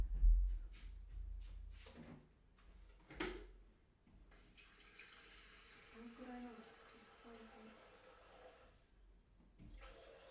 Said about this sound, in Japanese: お湯沸かしてきますお湯ね